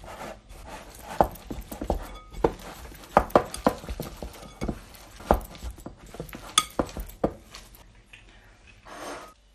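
A spoon clacks and scrapes against a bowl while suet pudding mixture is worked together with egg. Many irregular knocks and taps come in quick uneven bursts.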